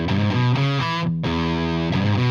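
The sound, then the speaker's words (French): A distorted guitar plays an E chord with a rising bass line, loud sustained picked notes that change a few times, with a brief drop-out just past the midpoint before the chord rings again. “on va jouer trois accords, chacun de façon différente. Donc sur le Mi, une montée de basse.”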